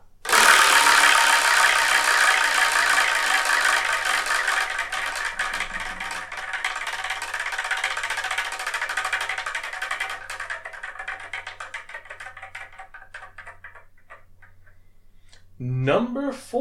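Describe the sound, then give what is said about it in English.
A prize wheel being spun, giving a loud, rapid clatter of ticks that gradually thins out and slows until it stops, with a voice briefly at the end. “So let's spin and see what we're reviewing the next episode, shall we?”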